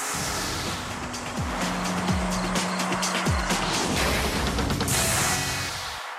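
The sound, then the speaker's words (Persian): A 2014 Ferrari LaFerrari supercar, one of only 499 built, gives a loud, sustained engine roar. Three sharp falling tone sweeps cut through a constant wash of noise. “از این شاهکار هنر ماشین فقط 499 عدد ساخته خواهد شد، اما مدت هاست که حرفش بر سر زبان هاست. از بخت خوبمون یکی از اونها رو حالا و اینجا فقط برای شما آوردیم، فراری در اوج.”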